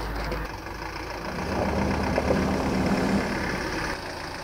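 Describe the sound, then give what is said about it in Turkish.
A car engine idles as the car arrives, a steady low rumble that holds fairly loud throughout with no voices. “araba geldi abi. Araba.”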